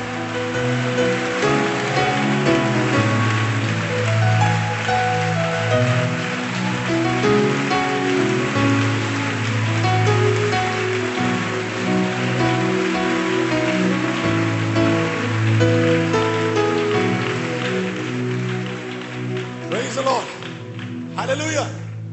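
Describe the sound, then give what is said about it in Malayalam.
Worshippers in an audience clap their hands together in a dense, steady patter that runs through the whole stretch, beneath a voice and music. “ഓ, കരങ്ങൾ അടിച്ച് അല്പനേരം പരിശുദ്ധാത്മാവിൽ ആരാധിച്ചാട്.”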